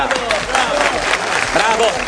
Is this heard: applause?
yes